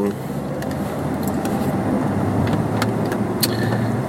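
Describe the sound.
A car pulls out with steady engine and road noise: a continuous low rumble under broad hiss, and a few faint clicks above it.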